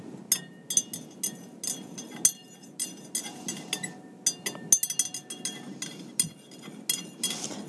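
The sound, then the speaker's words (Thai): A utensil clinks against a glass or bowl as ingredients are stirred together, many quick irregular taps and scrapes forming an uneven, clattering rhythm. “ครบนะคะครบตัวแล้วนะคะเราแค่คนให้เข้ากัน”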